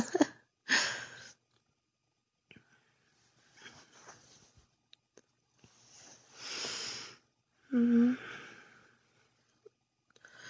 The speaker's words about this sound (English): I love being in your arms like this and listening to you breathe in my ear.